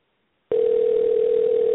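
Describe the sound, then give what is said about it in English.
A steady telephone ring tone sounds on an outgoing call to someone's phone: a single unbroken electronic hum that begins abruptly after half a second of silence and holds at an even level, with no voices. “How many times does her phone ring?”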